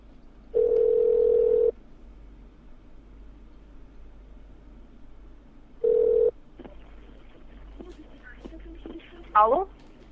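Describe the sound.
Ringback tone on an outgoing phone call to a debt collection company's number. Two steady mid-pitched tones, the first lasting about a second and the second shorter, are separated by a long pause over faint hiss, and brief voice sounds follow near the end.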